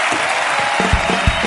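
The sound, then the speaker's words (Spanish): An audience applauding a world champion guest at a live event: loud, dense clapping from many hands that keeps a steady level from start to finish. “Pido un aplauso para el campeón del mundo, Javier Fernández.”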